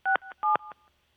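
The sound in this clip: Telephone dialing tones: a quick series of short, clear touch-tone beeps in a steady rhythm, loud at first and then softer before they stop.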